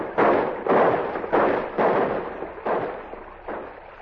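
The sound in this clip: Men in canoes pulling in to shore fire a celebratory volley of gunshots, heard as six dull, booming reports spaced at uneven intervals, each ringing out and fading, the later ones somewhat softer.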